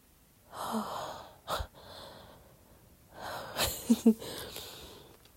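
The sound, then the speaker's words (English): Heavy breathing from someone catching their breath, a few loud gasping inhales and breathy exhales separated by quieter pauses, with two sharp, close catches of breath near the end. “I'm literally just catching my breath.”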